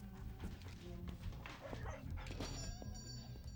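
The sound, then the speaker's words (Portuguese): A dog yaps and whimpers in a dubbed film scene, its short cries mixed into a dense, steady background of other sound that runs throughout. “Isso é um cachorro, Sol. Você não vai trazer essa coisa pra cá. Mas o que tem? É só um cachorro.”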